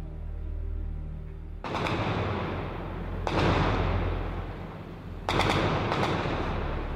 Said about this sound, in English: The small group of men, women, and children evacuees pause in a moment of gunfire before breaking out into a run.